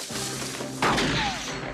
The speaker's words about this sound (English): shoots at them with a shotgun.